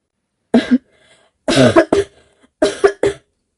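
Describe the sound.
Violent coughing from a young man thrown to the ground after being choked: several harsh, loud coughs in three bursts separated by short silent pauses.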